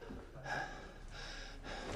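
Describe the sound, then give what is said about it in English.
A man panting heavily, a few rough breathy swells rising and falling over a steady noisy background. “Panting, Tommy stares at her, a drink in his hand.”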